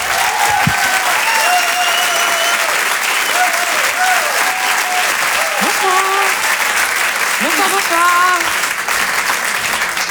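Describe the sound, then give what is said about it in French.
Loud, sustained applause from a comedy show audience fills the whole clip at a steady level, with cheering voices and a few whistle-like tones rising above the dense clapping. “Merci, je vous demande d'applaudir très très fort, s'il vous plaît, Caroline Vigneault.”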